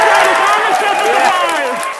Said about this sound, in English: Engineers at the Jet Propulsion Laboratory in Pasadena, California, erupting in cheers, as you heard, as they received data showing the spacecraft had survived a dangerous descent.